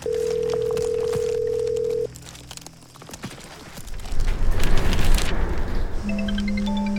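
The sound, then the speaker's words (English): A steady telephone line tone on an outgoing call holds for about two seconds and then cuts off, giving way to quieter rustling and then a louder, rumbling stretch of other noise. “Come on, Cherry, pick up. Damn it, pick up.”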